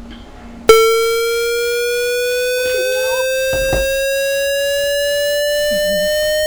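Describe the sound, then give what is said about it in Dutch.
A generated square-wave tone switches on abruptly and holds as a steady, buzzy electronic note rich in overtones, its pitch drifting slowly upward, heard alone. “Maar ik denk de holotoon. Een blokgolf of een square wave.”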